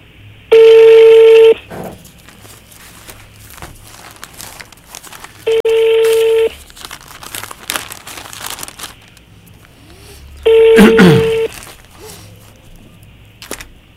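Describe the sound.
Three evenly spaced telephone line tones, each about a second long, sound while a number is dialed. Faint clicks and rustling fill the gaps between them.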